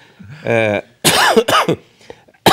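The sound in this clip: Coughing from someone with a cold comes as a few harsh, rough bursts after a brief voiced sound, followed by smaller throaty noises.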